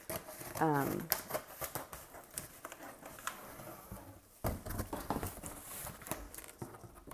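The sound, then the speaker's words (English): Cardboard boxes being cut, irregular scraping, tearing and tapping bursts that come in uneven clusters, louder near the start and again later. “This is just not the time for me to talk while I'm trying to cut boxes. I think because I'm afraid I'm going to cut myself. But I'm almost done. This is the last one.”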